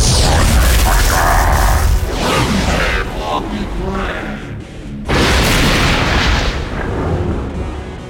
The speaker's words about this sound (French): Et moi, une boule de feu.